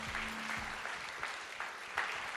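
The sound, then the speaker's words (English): Audience applause at a school assembly, a steady, fairly soft patter of many hands clapping together, with a few slightly sharper claps standing out now and then. “Hey, give all your leaders a big round of applause, huh?”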